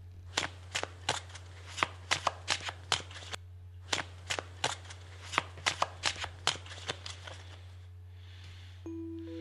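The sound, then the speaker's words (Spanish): A sorcerer shuffles a deck of cards, giving many quick crisp riffling bursts in an uneven rhythm over a steady low hum, with a short pause near the end. “nuestro amigo el brujo está barajeando las cartas”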